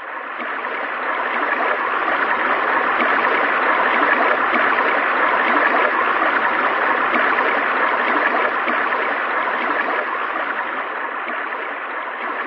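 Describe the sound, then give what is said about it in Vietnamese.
A small stream flows with a steady, even rushing wash of water that holds at the same level throughout, with no talk. “Chàng vừa rửa kiếm vừa vui mừng nhìn dòng suối nhỏ đang chảy về.”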